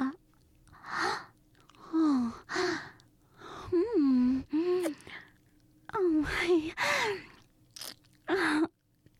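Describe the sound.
Someone eating with exaggerated chewing and mouth noises, broken into several bursts and mixed with voiced hums, gasps and sighs.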